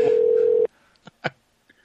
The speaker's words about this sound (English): Who are you calling now? You'll know if he answers.